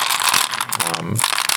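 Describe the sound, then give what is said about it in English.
Antique Corozo nut buttons, carved from palm kernels, clatter as they are handled, making quick irregular bursts of hard little clicks and rattles. “I use a lot of antique buttons. So these are all antique Corozo nut buttons.”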